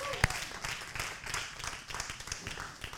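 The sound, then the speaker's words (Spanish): A church audience applauds during a sermon, a fairly faint, steady patter of many hands clapping at once, with one sharper clap standing out near the start. “Puede dar un aplauso al Señor si quiere.”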